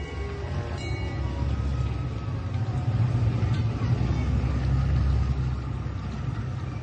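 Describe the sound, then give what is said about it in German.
Low engine rumble of a boat motoring out of a harbour basin at minimal power, heard as a steady, dull drone that stays even throughout. “Wenige Minuten später wurden die Leinen losgemacht, die Planke eingezogen und die Wave Dancer fuhr mit minimaler Kraft aus dem Hafenbecken.”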